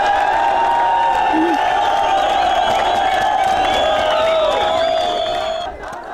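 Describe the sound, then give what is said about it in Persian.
Refugees demonstrating outside Budapest's international railway station chant freedom slogans. Many voices hold loud, sustained chanted tones throughout, easing off slightly near the end. “این پناهجویان شعارهای آزادی آزادی را سر دادند.”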